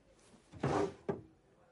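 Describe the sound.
A drawer is pulled open: a brief sliding scrape followed by a short, sharper knock, fairly faint against a quiet background.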